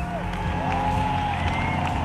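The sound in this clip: Stadium crowd ovation after the final song of a concert: a continuous, loud roar of cheering and clapping from a huge audience, steady in level throughout.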